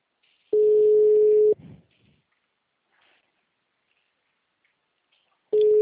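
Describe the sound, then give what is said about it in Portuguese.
A telephone line tone sounds while a call to a client is being placed. A steady single-pitched tone lasts about one second, followed by near silence, then the same tone starts again at the very end. “eu tô ligando pra cliente da Ianca”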